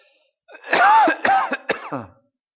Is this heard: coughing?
yes